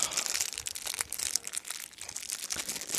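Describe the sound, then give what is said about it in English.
Crinkling cellophane being peeled off a cigar: a dense, continuous crackling and rustling of thin plastic that runs for about three seconds with small irregular bursts and no talk. “Let me get mine out of the cellophane.”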